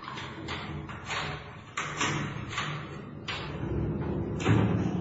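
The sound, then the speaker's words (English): A steel prison cell door slides shut along a dark passage and locks, a heavy grinding slide broken by a few loud metallic thuds, with no voices. “the door was slid to and locked”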